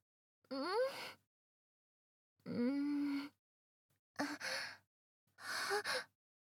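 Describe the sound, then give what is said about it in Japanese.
Heavy, rough breathing from someone smelling strongly of alcohol: four long, ragged exhalations with voiced, moaning sighs, each separated by a silent gap. “もう一回。呼吸すんごく荒い。”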